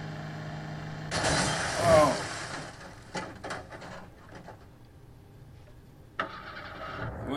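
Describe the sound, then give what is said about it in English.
A recovered vehicle's engine cranks and fires up, with a loud rising surge of rumbling noise that peaks early, then settles into a lower, steadier running sound broken by a few sharp knocks. “Now, at least the vehicle's recovered and started again.”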